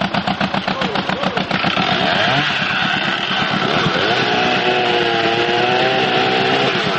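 A chainsaw cuts wood in a forest, run by a worker long used to felling and hauling timber. The engine drones loud and steady, pulsing roughly at first, then holding a high, rough whine with wavering pitch.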